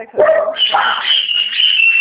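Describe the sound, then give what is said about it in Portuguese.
Dogs barking and yipping in loud, high-pitched bursts, with a drawn-out whining tone running through the final second and a half. “Cachorrada demais.”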